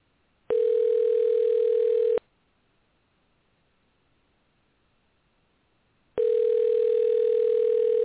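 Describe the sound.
Ringback tone heard by a caller placing a telephone call: two long, steady buzzing rings separated by about four seconds of near silence, each ring a flat, unchanging mid-pitched drone.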